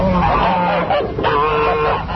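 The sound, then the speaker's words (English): Ducks call loudly while mating, a run of harsh, nasal, honking quacks that overlap and carry on almost without pause. “It's ducks. Yeah. That's them having sex. That's an easy one. That's an easy one. Ducks still sound like ducks.”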